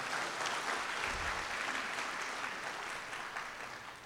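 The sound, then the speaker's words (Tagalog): An audience applauding in church: continuous dense clapping, fairly quiet and even, that tapers off slightly toward the end. “Pwede pong palakpakan natin ang ating Panginoon?”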